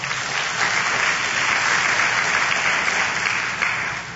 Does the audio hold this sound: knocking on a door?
no